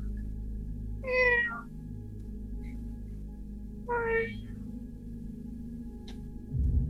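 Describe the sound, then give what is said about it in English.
A cat meows from behind a trap door: two clear, wavering meows a few seconds apart, each short and moderately faint, over a steady low hum. “It sounds like a cat.”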